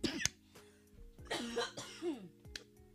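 A woman coughs and chokes, starting with a sharp cough, then several ragged, strained coughing bursts with voiced, wavering sounds. Quiet overall.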